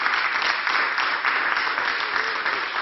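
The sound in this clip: Audience applause at a music project presentation, a dense, even burst of many hands clapping that holds steady throughout without talk over it.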